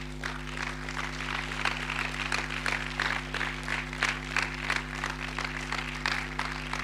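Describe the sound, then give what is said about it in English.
An audience stands and applauds to welcome a pastor at a church gathering. The clapping is steady and moderately loud, with a constant low electrical hum underneath. “Let's stand up and put our hands together to welcome Pastor Leban Jumba.”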